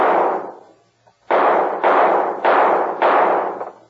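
Gunshots fired at the knobs on top of a street sign: one shot, then after a pause four more in quick succession, each loud crack trailing off in a ringing decay.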